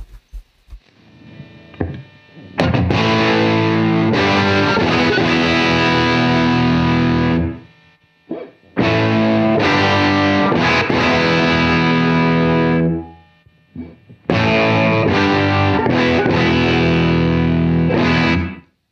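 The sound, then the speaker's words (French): Distorted electric guitar runs through three amp model emulations in turn, Super Bass, Brown Sound and Plexi, with gain rising at each stage; three loud, sustained strummed passages are separated by short silent gaps. “je vais revenir sur la première émulation, et je vais passer au travers des trois modèles d'ampli, comme ça vous verrez un peu les trois niveaux de gain dont vous disposez.”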